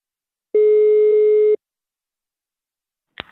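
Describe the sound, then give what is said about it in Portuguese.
A telephone ringback tone sounds as a call is placed: one steady, mid-pitched hum lasting about a second, then silence and a short click near the end. “Vou ligar agora pra Aparecida.”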